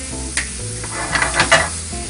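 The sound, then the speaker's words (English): A fork whisks two scrambled eggs in a bowl, giving a few quick, light scraping taps over steady background noise. “So I'm gonna use my fork. Whisk these eggs up real quick.”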